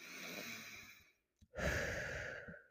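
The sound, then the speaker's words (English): A deep breath taken slowly: two long, airy breath sounds separated by a brief pause, the second fuller and louder, heard alone without talk. “Actually, just take a deep breath together right now.”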